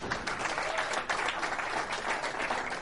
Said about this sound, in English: Now going to welcome to the stage Kathy Engelbert, the commissioner of the WNBA. Give her a hand.